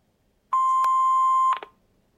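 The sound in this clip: An answering machine gives one long electronic beep before a recorded message: a loud, steady tone of unchanging pitch lasting about a second, with a short flurry of clicks right after.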